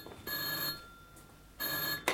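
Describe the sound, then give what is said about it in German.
A telephone bell rings twice in a night watchman's office. Each bright, steady ring lasts about half a second, with a longer pause between the two, and there is no talk over them. “Das ist das Telefon im Büro des Nachtwächters.”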